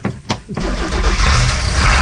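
A lobster boat engine starts: a couple of brief cranking bursts, then it catches and settles into a loud, steady, rumbling run.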